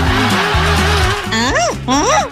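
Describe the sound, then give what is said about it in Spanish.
A human voice imitates a car alarm: a loud, wavering electronic-style tone, then two quick whooping sweeps that rise and fall in pitch. “El programa pide que me mande un audio simulando una alarma de auto.”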